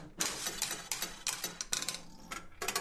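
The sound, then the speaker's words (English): Clattering mechanical bursts of an old 1950s-era penny arcade gambling machine being played at Bundoran, with many rapid ratcheting, gear-like clicks and clunks in uneven spurts throughout. “I actually won. I won a penny and another go. So when you went to Bundoran, of course, you're going for the fun and enjoyment and excitement, and these are the types of machines you would have played when you'd got there.”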